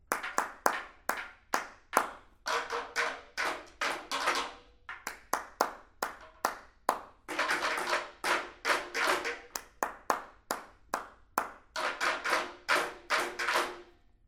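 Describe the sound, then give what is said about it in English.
Bare hands clap out a rhythmic beat while teaching a drum pattern, with many sharp, crisp claps repeating in a steady grouped pattern with no other sound. “You play with a stick, but I'm gonna clap my hands.”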